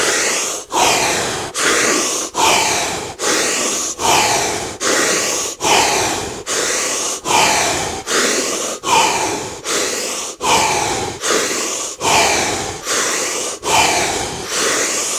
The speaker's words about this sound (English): Back to the breaths.